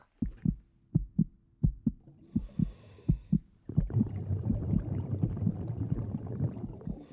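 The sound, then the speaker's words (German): Heartbeat, stomach gurgling and blood rushing as heard inside the womb: a steady run of low, muffled double thumps, then a dense rushing, churning noise swells in about halfway and continues under the ongoing pulse. “Der erste Sound, den wir im Leben hören, hat einen ziemlich starken Beat. Das Herz pocht, dazu kluckert der Magen der Mutter, ihr Blut rauscht in den Adern.”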